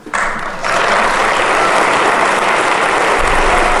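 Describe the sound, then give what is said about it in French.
Audience applause, a dense, steady roar of clapping that swells in quickly and holds loud for the whole stretch, with no voices rising above it. “Merci, merci, public en délire.”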